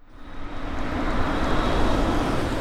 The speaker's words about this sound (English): Watch out! It's a taxi.